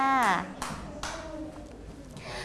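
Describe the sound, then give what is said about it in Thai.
A few sharp hand claps from children applauding classmates after a presentation of their clay flower artwork at school. A child's voice is heard first, then scattered, brief claps under quiet talk. “ปรบมือให้กับเพื่อนหน่อยค่ะ”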